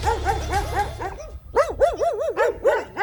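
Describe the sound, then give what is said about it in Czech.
A female dog barking in a quick series of pitched, yelping barks, first over a low rumbling bass, then louder and clearer, with rising and falling tone in each bark. “Je to psí dáma, jsou to všechny psí dámy, které mají jméno Bára. Takže Bárám, pánové, pěkně pozdrav.”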